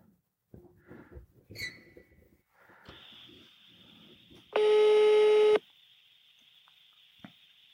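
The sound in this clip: An outgoing phone call placed by Siri rings: a loud electronic tone burst of about one second sits within a fainter steady high tone, preceded by a few soft, scattered sounds.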